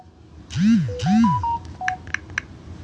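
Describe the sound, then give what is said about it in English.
Phone text-message notification tones, several arriving at once: two swooping electronic chirps followed by a quick run of short beeps and bright pings, loud and clear. “Hold on, y'all, because I'm getting texted. I'm receiving messages out the ass.”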